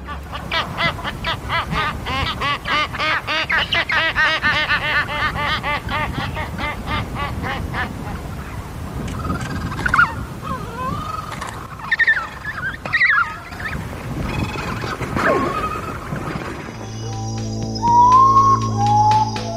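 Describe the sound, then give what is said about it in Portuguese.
Adult seabirds call while chicks answer at a creche: dense, overlapping braying and nasal calls mix with high whistling peeps and chattering cries, continuing steadily throughout. “os chamados são incríveis, assim. A gente consegue ter a memória auditiva desses adultos chamando e os filhotes respondendo.”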